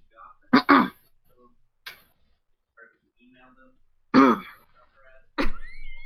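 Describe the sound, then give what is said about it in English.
A person clears their throat in a few short, harsh bursts separated by near silence. “Sorry, the extra throat clear got me.”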